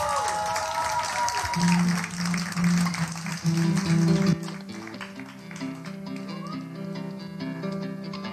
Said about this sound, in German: Und bitte einen warmen, wenn nicht sogar einen tosenden Applaus für eine weitere Performance von der großartigen Ditty.